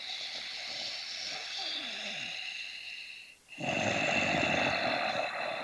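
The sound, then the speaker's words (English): Ujjayi breathing through a constricted throat: a long, raspy, hissing breath, a brief pause, then another louder breath, steady and harsh, with no words. “they're familiar with what's called Ujjayi breath. I call it Darth Vader breath. That's the one where you do the little constriction in the back of your throat. So as you breathe in and out, it sounds like...”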